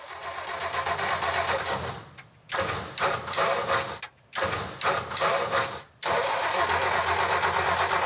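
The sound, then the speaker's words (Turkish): A carbureted engine starts and runs loudly with a rough mid-pitched drone, cutting out abruptly a few times before catching again and running steadily through the final seconds. “Bakalım motor çalışacak mı?”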